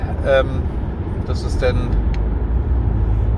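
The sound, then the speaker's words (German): Steady low rumble of road and engine noise inside a moving car, a continuous drone that stays even throughout, with a few brief voice fragments near the start. “falls ihr ein bisschen Hintergrundgeräusche habt, wie gesagt, ich sitze gerade im Auto, ich bin auf dem Weg.”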